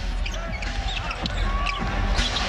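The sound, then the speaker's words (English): Basketball dribbled on a court during a game, with several sharp, quick bounces in an uneven rhythm over a steady background din. “Hawkins picks up his dribble before he feeds it off to Ware.”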